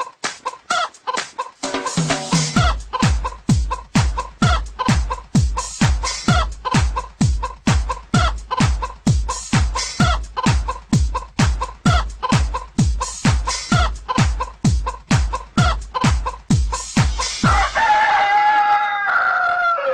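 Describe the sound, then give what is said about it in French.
Hens in the courtyard of an IME in the evening give a long run of rapid, evenly spaced clucks, each with a deep thump beneath it. A drawn-out rooster crow closes the sequence. “les poules, hein. Ça picore comme ça dans la cour de l'IME. Mais quand on passe le soir devant l'IME, si on tend bien l'oreille, eh bien, quelquefois, on peut entendre ça.”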